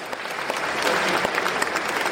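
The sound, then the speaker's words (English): A gathering of pop stars, actors, film directors and decorated servicemen in the Kremlin's ornate St. Andrew's Hall applauds the president's entrance: dense, continuous clapping, loud and sustained, with faint crowd murmur. “Pop stars, actors, film directors and decorated servicemen applauded as the president entered St. Andrew's Hall with its giant chandeliers, gold-trimmed columns.”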